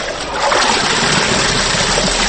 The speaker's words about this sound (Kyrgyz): Жетимишке таяп калганы менен ал чапчан кыймылдап кирлерин жууп жатат.